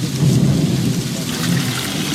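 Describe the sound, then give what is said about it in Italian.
Heavy rain pours down in a dense, steady roar, while a deep rumble of thunder rolls underneath, loud and continuous throughout without any pause or voices. “Piove così tanto che mi bagno le mutande.”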